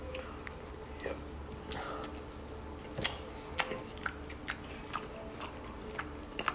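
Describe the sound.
Food being chewed and bitten while eating on mic, heard as many short, faint crunchy clicks and moist snaps scattered irregularly over a low steady hum, with no talking.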